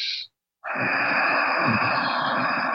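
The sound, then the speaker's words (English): A person does ujjayi yogic breathing, exhaling with a constricted throat: after a brief breath and a short pause comes a long, steady, hissing exhale, sustained and even in loudness. “And this is the breath that they do in yoga classes called Ujjayi.”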